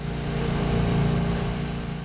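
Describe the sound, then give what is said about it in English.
A small motorboat engine drones as the boat speeds across the Tennessee River. The low, loud and steady roar swells slightly in the middle, with no talking. “I climb inside the small motorboat, and then Westcott and I speed off across the Tennessee River to Williams Island. A lot of trips across the river. We travel quickly across the river.”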